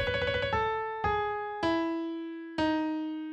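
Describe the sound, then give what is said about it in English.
Piano notes approximate a binai trill. A quick run of repeated notes is followed by four struck notes, each stepping lower and ringing out as it slowly decays, heard alone. “the closest notes I can play on a piano sound like this.”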